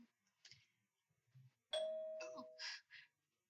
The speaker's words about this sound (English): I heard a doorbell.